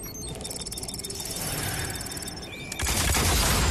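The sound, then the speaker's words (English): Rapid gunfire of heavy heat-seeking rounds fired at a horde of simulated opponents: a dense rattle of shots beneath high electronic tones, swelling into a louder burst near the end. “seems to be trying out new heat-seeking ammunition against a horde of simulated opponents.”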